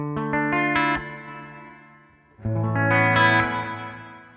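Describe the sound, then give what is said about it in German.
Plate reverb effect on bright harmonic notes. A quick run of notes rings out into a long, decaying tail, then a second, fuller phrase swells and fades away slowly. “Diese Plate Reverb, das ist was, das gab es früher nur in den großen Tonstudios, das gab es dann extra eine Hall, einen eigenen Hallraum, eine Hallkammer, ja, ja. Wo dann diese großen Platten irgendwie drin hängen.”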